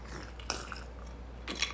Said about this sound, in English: And then I'm going to screw this lid down on there. Got a little too much ice in my bottle here.